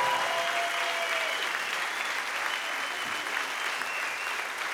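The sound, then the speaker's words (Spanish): Concert crowd applauding two people, loud sustained clapping from many hands with a few whistles mixed in, easing slightly toward the end. “Un aplauso para ellos. Son fantásticos, joder.”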